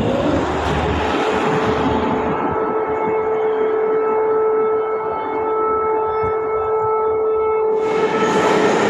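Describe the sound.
A subway train at a metro station, producing a steady, loud rumble with a sustained tonal whine that holds throughout, the brighter high hiss swelling again near the end; no one speaks.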